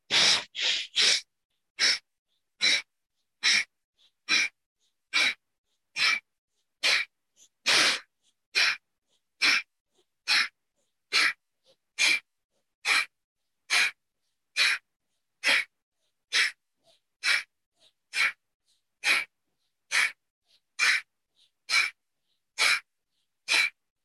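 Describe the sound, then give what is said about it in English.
Bellows breathing from the belly in a solar pranayama practice: many rapid, forceful breaths through the nose. Each is a sharp, loud, breathy burst, repeated at a steady pace of about one per second with silence between them. “Let's go straight in, bellows breath from the belly, 30 rounds.”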